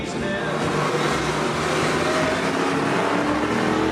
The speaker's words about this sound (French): Vraiment une auto avec laquelle on peut s'amuser sur circuit et certainement aller chercher des Porsche ou autres Ferrari. En interne, les concepteurs de Jaguar la surnomment la GT3 berline,